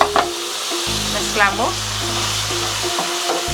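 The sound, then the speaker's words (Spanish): Tomato and chopped garlic fry in butter and oil with a loud, steady sizzle and crackle, broken by brief scraping stirs. “y las vamos a llevar a cocinar. Mantequilla, aceite, vamos a poner tomate y ajo picado, suficiente.”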